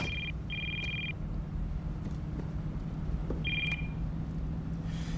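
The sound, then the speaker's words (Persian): A telephone ringing with short, high electronic ring bursts: two close together at the start, then one more after a pause, all over a steady low rumble. “آره روشنش میذارم، شاید یکی بهش زنگ بزنه. زود باش برش دار.”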